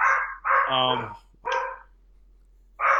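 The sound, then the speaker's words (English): A pet dog, teased into it by a child, lets out about three vocal bursts: a long tonal howl-like bark, a shorter yelp, and a final one cut off at the end, with quiet gaps between. “My daughter just walked in from school, and she's actually torturing the dog to make him do this.”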